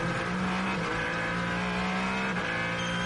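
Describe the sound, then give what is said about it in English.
Ferrari race car engine pushing along during a track race: a loud, steady, sustained engine drone with a constant buzzing tone throughout, no voices. “The Ferrari of Alessandro Pecorini pushing along.”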